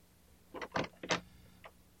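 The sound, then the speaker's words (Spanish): A door being opened, a faint series of a few short clicks and rattles from the latch and handle, separated by brief pauses against a quiet background. “Mejor será que abra la puerta y lo llame.”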